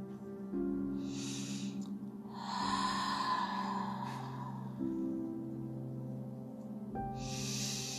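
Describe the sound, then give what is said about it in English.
Slow, deep breaths are drawn in and released during a guided meditation, heard as a few long, airy whooshes over a soft, sustained musical drone. “Close your eyes and take a deep breath. Inhale and exhale.”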